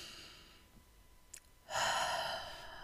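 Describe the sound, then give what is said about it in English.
A deep breath in and out during a guided relaxation pause: a faint, drawn-in inhale, then a long, loud, breathy exhale like a sigh, with no talking. “let's just take a second to take a deep breath. Take a deep breath in, put your hand on your belly.”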